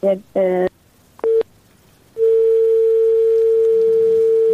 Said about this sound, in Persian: فکر کنم تماس ایش مهمان ما قطع شد.